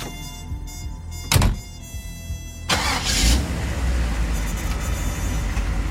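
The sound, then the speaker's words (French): A car door shuts with one solid thunk, then the engine cranks, catches and settles into a steady running rumble. “Il est 13 heures quand Malcolm prend sa voiture en direction de Harlem.”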